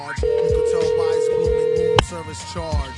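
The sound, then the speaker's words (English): A telephone ringback tone sounds as a call rings through to voicemail: one steady, sustained mid-pitched tone lasting under two seconds, with voices talking before, over and after it. “He's going to voicemail.”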